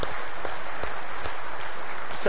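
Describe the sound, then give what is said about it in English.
Church audience applause during a Sunday service for the worship team and pastor, a sustained, even wash of clapping that holds at steady loudness throughout. “let's give the worship team and Pastor Dan a round of applause again”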